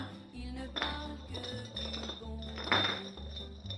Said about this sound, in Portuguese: pega a garrafa do refrigerante que tinha acabado de beber e inicia o jogo